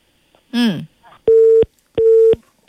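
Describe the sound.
Telephone busy tone after a caller's line cut off during a radio phone-in; a short voiced sound comes first, then steady mid-pitched beeps, two full bursts evenly spaced and a third just beginning.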